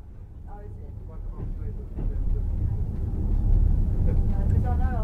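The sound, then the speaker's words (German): A Trans-Siberian Railway train sets off again, its low, broad rumble swelling steadily louder over a few seconds as it gathers motion. “Unser Zug setzt sich erneut in Bewegung, um sich weiter dem heimlichen Höhepunkt unserer Reise zu nähern, dem Baikalsee.”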